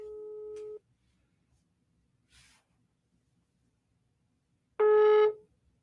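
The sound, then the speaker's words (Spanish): Telephone line tone while a call is redialed after the signal dropped: two steady, mid-pitched tone beeps separated by a long silence, the second louder and slightly longer, with a brief faint hiss between them. “se nos fue un poquito la señal. Te voy a volver a marcar.”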